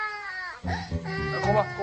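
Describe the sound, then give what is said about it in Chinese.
A child crying in loud, high, wavering wails that break into choppy sobs partway through. “别哭了，你把阿瑶叔都哭诈尸了，你看。”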